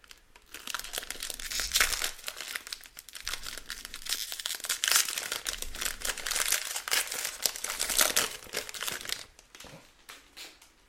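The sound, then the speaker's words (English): Crinkling and tearing of a foil pack of 2023 Panini Prizm UFC trading cards: many crisp, crackling bursts come in an uneven rhythm, with a few short pauses between handfuls of rustle. “here we go with the first pack from tonight and our third box of Panini Prizm for 2023.”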